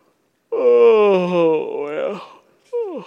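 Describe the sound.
A person's deliberate, drawn-out yawn, voiced as a long moaning tone that slowly sags and fades, followed after a brief gap by a short, falling vocal sound.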